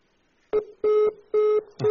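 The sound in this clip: Disconnect tone after a telephone call is cut off: four evenly spaced beeps at one steady mid pitch, the first shorter than the rest, with no talk.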